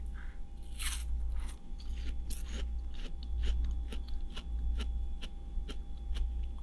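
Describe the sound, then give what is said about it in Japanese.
Crunchy bites and steady chewing of food, eaten close to the right ear, give a rapid, regular series of many crisp crackling crunches over a continuous low hum, with no talking. “あっちこっち向いて食べるのがちょっと難しい角度なので右耳からお楽しみください。”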